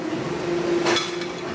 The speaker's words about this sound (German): hört man richtig den glasigen Sound, als würde ich ein Glas irgendwo anschlagen. Weil hier 30% von diesem Teil sind Glas.